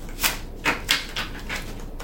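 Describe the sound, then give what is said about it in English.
Stiff, tough-stock tarot cards being split and handled, giving a few faint, papery slaps and flicks spaced irregularly across a quiet background. “All right, I'm splitting the deck now. This deck is a little bit... the card stock is really, really, really tough, so it doesn't bend as much.”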